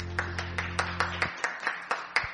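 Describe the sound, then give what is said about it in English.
Clapping from a church audience in Texas: a steady run of evenly spaced, crisp claps, faint and regular, with no cheering or voices. “give the Lord a cheer.”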